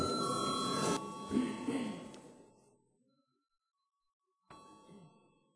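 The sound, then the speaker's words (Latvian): A bell rung in a parliament chamber to call a vote, with a bright sustained ringing that stops and fades into silence, then returns as a second, shorter ring that also decays. “lūdzu zvanu.”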